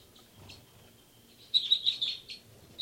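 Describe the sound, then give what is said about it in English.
Faint chirping from banded birds being recorded: quiet at first, then a quick burst of several high, thin chirps, with another short call at the very end. “Start recording now, birds 274 and 275, as well as birds 384 and 385.”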